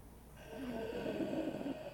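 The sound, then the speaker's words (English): A raspy, rattling breath from an injured man, one slow, rough exhalation lasting over a second, low-pitched and fairly quiet. “He lets out another raspy breath.”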